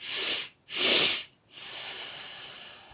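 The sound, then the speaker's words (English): Nasal breathing exercise: two short, forceful sniffing inhales through the nose, the second one stronger, followed by a longer, softer, steady exhale through the nose. “take your inhale, and then as you get to the top, take another inhale to really fill up, and then exhale through your nose. So it's going to sound like this.”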